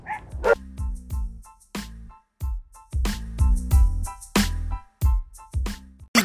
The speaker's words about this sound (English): And there go the dogs again.